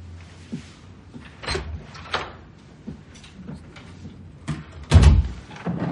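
A house door opening and closing as someone comes home: soft creaks and light knocks, then a heavier thud as the door shuts near the end, low in level throughout.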